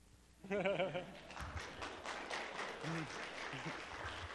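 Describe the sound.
Weak audience applause after a speaker's welcome: thin, scattered clapping at a low level, with a voice speaking briefly just before it and briefly again partway through.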